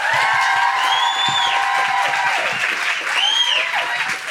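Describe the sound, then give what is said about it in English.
Applause and cheering from a Gold Coast audience welcoming a singer-songwriter to the stage: dense, steady clapping throughout, with high whoops and whistles rising above it, strongest near the start and again later. “Put your hands together and make incredible Gold Coast welcoming Guilty Feminist Noises for the wonderful Grace Petrie!”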